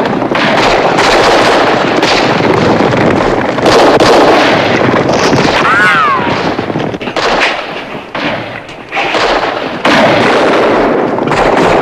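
Heavy gunfire fills a fight between freed outlaws and a marauding band of Mexican bandits at a cantina. Shots crack in rapid, overlapping volleys, loud and continuous, with only a brief lull near the end.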